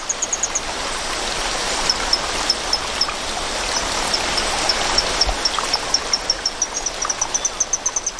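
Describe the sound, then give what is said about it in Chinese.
Stream water flows in a steady, broad rushing hiss, with a regular series of thin, high chirps repeating on top of it throughout. “水流的声音还是太大了，需要更强效的措施。”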